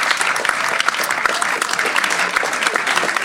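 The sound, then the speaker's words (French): An audience applauds young members of a school media club. The clapping is loud, dense and steady, with a few sharper claps poking out of the constant patter. “On peut les applaudir, s'il vous plaît, ces jeunes du Club Média”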